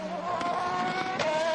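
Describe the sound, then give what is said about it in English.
Steady, loud engine roar from BMW and Peugeot race cars battling side by side for position with contact, a continuous high-pitched drone with no voices. “BMW and Peugeot coming together side by side. Oh my goodness, battle for position, and that was a fairly robust manoeuvre at the moment”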